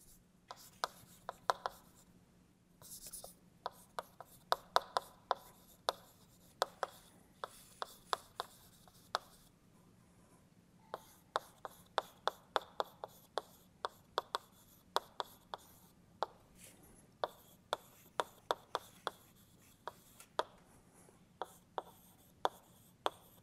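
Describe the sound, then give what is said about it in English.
Chalk or marker writing on a board during a physics lecture: many short, sharp taps and scratchy strokes in quick clusters, with a brief lull near the middle, over a faint steady hum. “let me just write down the slogan here.”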